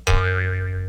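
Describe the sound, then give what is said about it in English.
A cartoon spring boing sounds as a single sharp twang, then a bright wobbling tone that sustains loudly for under a second. “I get it. It's the sound of a spring.”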